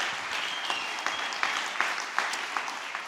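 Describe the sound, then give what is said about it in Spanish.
An audience applauds with steady, dense clapping, a few sharper claps standing out at irregular intervals, moderately loud throughout with no voices over it. “Así que vamos a darles un aplauso, que es mucho trabajo.”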